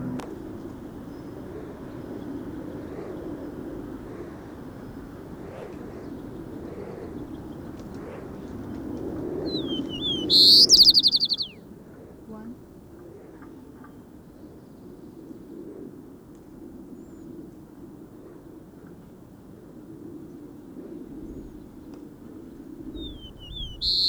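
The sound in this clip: Sparrow chirping: a quick burst of high, sharp chirps midway over a steady low hum, then a faint brief chirp right at the end.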